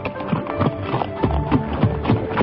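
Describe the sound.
Horse hooves gallop in a quick, steady rhythm, a continuous run of dull thudding beats that stays fairly loud and even throughout, with no pause between strides.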